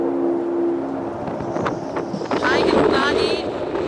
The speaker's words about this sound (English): We are now in Trieste and the Vora wind is welcoming us and it's cold.